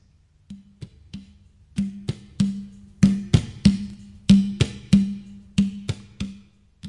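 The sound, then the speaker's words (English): Rhythmic hand drumming on a duf, a large frame drum without cymbals, mixing deep booming low strokes with sharp slaps that grow louder after the opening soft taps, with no jingles or voices. “I started with the duf. It is also a Mazhar, but without the cymbals. It sounds like this.”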